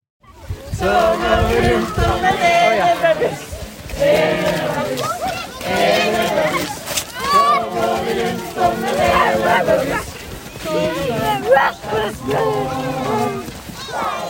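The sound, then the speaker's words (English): Many voices rise and fall together as a crowd gathers at a community Christmas tree lighting in Norway, forming a dense, continuous mass of sound with rhythmic swells and brief dips throughout. “What you are hearing is the sounds of our recent julegranstenning, which is a Norwegian word I had a long time mastering, and that is the community Christmas tree lighting.”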